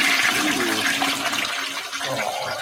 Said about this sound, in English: It was a quick flush,